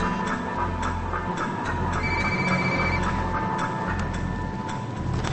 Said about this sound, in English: dials a cell phone